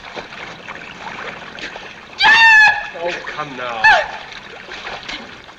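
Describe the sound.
Splashes in the old film Reap the Wild Wind as a woman is thrown into the water and a man jumps in after her. Two loud bursts come a little over a second apart, with voices around them.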